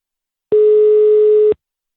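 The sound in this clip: A telephone ringback tone sounds during an outgoing call: a single loud, steady, mid-pitched beep lasting about one second, with silence before and after.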